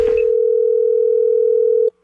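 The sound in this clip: A telephone ringback tone on an outgoing call sounds once as a steady mid-pitched hum lasting about two seconds, then cuts off to silence.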